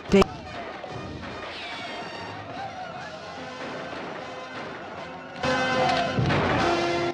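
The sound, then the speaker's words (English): A section of a fort's outer wall collapses during a battle. A sharp crash opens, noisy combat rumbles on, then a louder, heavier crumbling crash builds near the end. “A section of the wall suddenly collapses, and Mexican with the outer defenses crumbling,”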